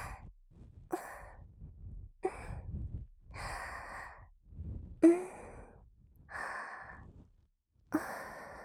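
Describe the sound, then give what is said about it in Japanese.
Slow, relaxed breathing from a husband during an ear-cleaning session: several soft, airy breaths and sighs, each drawn out and spaced evenly, at a gentle, low level with quiet pauses between them. “旦那様のゆったりな呼吸。”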